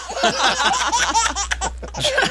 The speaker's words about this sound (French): Hey, moi, ce bébé-là qui rit, là... Ce bébé-là, hein? Wow! Je veux ça comme sonnerie de téléphone.